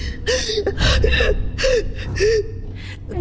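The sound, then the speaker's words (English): Someone being choked gasps desperately for breath: a rapid series of harsh, strained inhalations broken by short whimpering catches in the voice, loud and without words. “All of the air was sucked from my lungs.”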